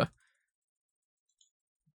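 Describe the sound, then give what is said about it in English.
A computer mouse click: one sharp, fairly loud click at the start, then a couple of very faint ticks over near-silence. “I'm gonna click on here.”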